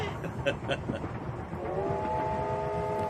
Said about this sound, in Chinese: 火车把平荣带向了远方，转动的车轮也撵走了时光。